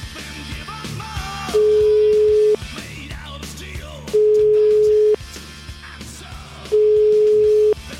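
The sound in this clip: Telephone call tone: three identical steady beeps, each about a second long and evenly spaced with gaps of roughly one and a half seconds, loud over a faint, murmuring background.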